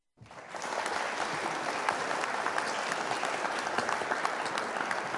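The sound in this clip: An audience breaks into applause: clapping starts abruptly and holds as a steady, dense wash of many hands.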